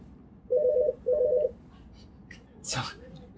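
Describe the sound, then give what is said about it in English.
Telephone dialing tones interrupt a talk: two short bursts of rapid, steady beeps follow each other closely, then fainter noise. “Somebody's dialing there. Somebody's got a call.”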